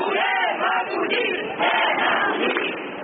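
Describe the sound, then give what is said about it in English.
Crowd of thousands shouting and chanting at a Barcelona march in favor of accepting more refugees: a dense, continuous roar of many voices that stays loud and steady throughout. “As thousands marched in favor of accepting more refugees.”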